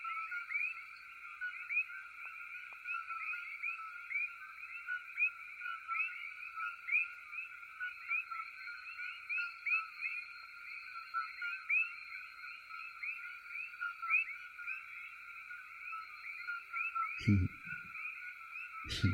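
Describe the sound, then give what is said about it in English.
Coqui frogs call in a dense, continuous chorus of high, piercing chirps that overlap without pause, with one brief low thud near the end. “Let me play some koki frogs. These are frogs that are really loud, so they're trying to kill them off.”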